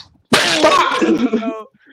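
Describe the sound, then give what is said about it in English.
A slap across the face in a cartoon fight: after a brief quiet, a sharp smack cracks out, followed straight away by a strained, voiced cry that trails off over about a second and a half. “And straight slapped the piss out of her, bro.”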